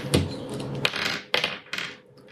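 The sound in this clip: Dice clattering across a surface during a tabletop game, a few sharp clicks and rattles in quick succession.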